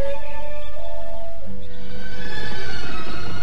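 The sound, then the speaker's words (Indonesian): A horse neighs in a long, high whinny followed by rougher, noisier snorting, one of two sturdy horses setting off from a city gate. “berderap dua ekor kuda yang tegar dan perkasa”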